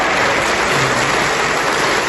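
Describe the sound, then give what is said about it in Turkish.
Loud applause in the Turkish parliament as the AK Party group claps in support of Erdoğan: a dense, rain-like roar of many hands that fills the hall and stays steady throughout. “AK Parti grubuysa Erdoğan'a destek vermek için alkışlarla adeta salonu inletti.”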